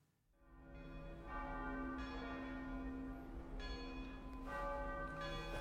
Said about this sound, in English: Listen to the decay of the bells. They call it the decay, the diminishing of the sound after you've struck an instrument.